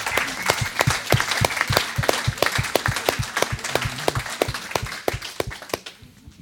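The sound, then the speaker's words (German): Congregation applause for church ministry leaders, crisp individual hand claps in a brisk, steady patter that continues evenly before thinning out and fading at the very end. “Lasst uns doch mal einen Applaus geben für all die vielen Dienstleiter, die hier so arbeiten.”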